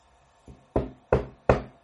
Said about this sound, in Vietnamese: Có tiếng gõ cửa vang lên rất khẽ.